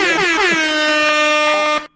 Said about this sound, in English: I need some air horns today. Okay. What? Air horns it is.